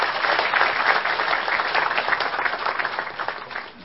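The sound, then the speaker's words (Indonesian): Applause from an audience at a talk event, dense and steady clapping throughout that slowly thins toward the end. “sekali lagi tepuk tangan untuk Mbak kita”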